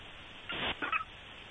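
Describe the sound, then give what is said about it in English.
Short honking squeaks from a dog's stuffed squeaky toy shaped like a little skillet with bacon and eggs. A longer squeak is followed by a couple of quicker, fainter ones, over quiet background. “What was that? You got a parrot? That is Murph's favorite toy.”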